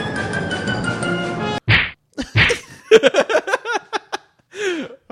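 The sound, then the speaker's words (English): Punch sound effect: a stretch of dense, noisy sound cuts off, then two sharp, heavy thwacking hits land a moment apart, followed by a string of short, choppy tonal bursts. “You gotta love the punch sound effect.”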